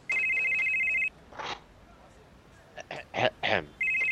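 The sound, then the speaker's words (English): A telephone rings out during an outgoing call with a steady electronic tone lasting about a second. A voice talks in the pause, and the ring starts again at the end. “I'm calling Johnny Fastfingers.”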